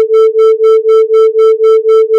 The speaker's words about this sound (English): But now, the two tones together.